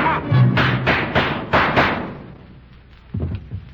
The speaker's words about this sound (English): I hear some shot. It sounds like...